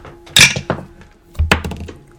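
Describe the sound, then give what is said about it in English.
A twenty-sided die rolled on a table during a tabletop role-playing game, giving two bursts of clattering taps and short tumbling rattles that die away, with no talk. “Roll a d20.”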